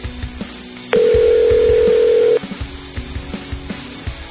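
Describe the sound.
A phone ringing out while calling someone: a single steady, loud electronic tone lasting about a second and a half, surrounded by soft irregular taps and bumps before and after.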